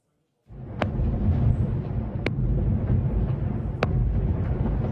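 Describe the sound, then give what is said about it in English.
Israeli airstrikes and artillery fire strike Nabatieh in southern Lebanon overnight: a steady low, heavy roar begins after a short silence, with three sharp cracks spread through it. “This was the scene in Nabatieh overnight, where there have been dozens of strikes and artillery fire”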